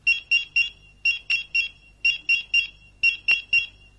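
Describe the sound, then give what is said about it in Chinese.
A pager beeps in four evenly spaced bursts of three sharp, high electronic tones. The pattern is loud and regular, with no talk. “传呼响了”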